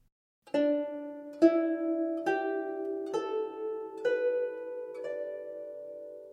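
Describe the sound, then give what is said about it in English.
A jung zither plucked through a pentatonic D, E, G, A, B scale: six evenly spaced, clear string notes played alone, each sharply struck and ringing out with a bright, slowly decaying tone. “These produce the following scales: D, E, G, A, B, which sounds like this.”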